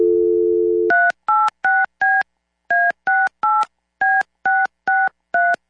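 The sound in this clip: A steady telephone dial tone hums briefly, then touch-tone keypad beeps dial a county communications demo line, short evenly spaced tones in a few quick groups separated by short pauses.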